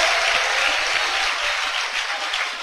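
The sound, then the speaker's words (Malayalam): An audience claps its hands to praise God, producing thick, continuous applause with a bright, even texture and no pauses, steady in loudness from start to finish. “മനസ്സിലായവർ കൈയടിച്ചു ദൈവത്തിന് സ്തോത്രം ചെയ്യ.”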